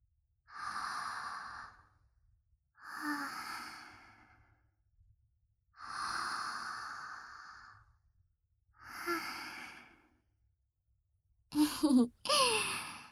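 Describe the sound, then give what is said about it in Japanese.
Deep, slow breaths taken together during a break near a spring: several long airy inhales and exhales in a steady rhythm, then a shorter, sharper double breath at the end, with no talking. “一緒に深呼吸しましょう。”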